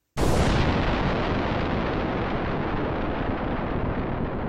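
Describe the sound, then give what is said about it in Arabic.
Nearby bomb explosion sound effect in a drama: a sudden loud blast that turns into a dense, sustained roaring rumble, lasting several seconds without fading much and with no voices. “إليكم قنبلة انفجرت قربنا.”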